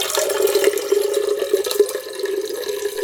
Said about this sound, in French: Vous aviez le bruit de l'eau qui coule dans l'arrosoir.